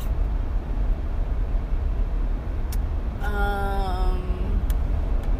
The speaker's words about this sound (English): I was like all fired up, and now I'm like, ooh, the road. Yeah, driving. Maybe I should record while I'm driving all the time.